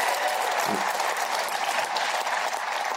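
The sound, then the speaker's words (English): A small audience claps at a live show, a continuous patter of many hands at an even, moderate level that holds steady for about three seconds without voices. “We have a small audience tonight, but even with a small audience, uh, only one tenth of that audience applauded two of the really great artists of our time”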